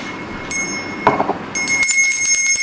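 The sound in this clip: A small bell rings with a bright, high metallic tone: a brief ring, then a steadier, sustained ringing through the final second.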